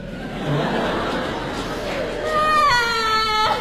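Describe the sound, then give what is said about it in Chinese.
A child cries with a whining, wavering wail that grows louder and higher in the final second, over a murmur of other voices. “别哭别哭别哭”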